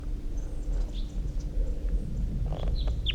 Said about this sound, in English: Wild bird's coming in. Wild bird. In flight. Wild bird song phrase.